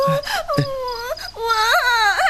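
A young child cries and whimpers after waking from a nightmare, with high, wavering sobs that rise and fall in pitch and continue without a break throughout.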